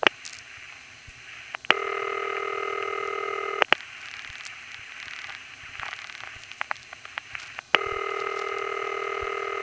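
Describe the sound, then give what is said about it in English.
A standard city telephone ring tone from Richmond Hill, Queens, on an old phone line: two long, buzzing ring bursts separated by a pause, with line hiss and scattered clicks between them. “after the recording, we hear another standard City Ring from Richmond Hill, Queens.”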